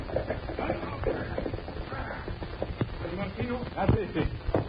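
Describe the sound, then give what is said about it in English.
Hoofbeats of a detachment of mounted police arriving, an uneven clip-clop of hooves mixed into steady voices and background bustle. “Colonel, look. Huh? Just arriving. Isn't that a detachment of mounted police?”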